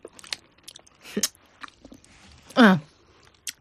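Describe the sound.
People chew and eat jujube dates during a break from parade training: soft, scattered bites and wet mouth clicks come at irregular intervals, with one short voiced murmur midway.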